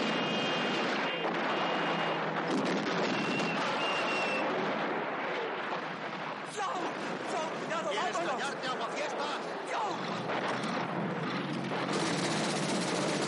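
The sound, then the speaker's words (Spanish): Machine-gun fire and rattling gunshot bursts from a 1970 war film, a dense and sustained volley that fills the whole stretch while a voice speaks over it. “Estos responden al ataque con sus metralletas, pero son abatidos antes. De pronto, un coche estalla frente al jeep de Kelly.”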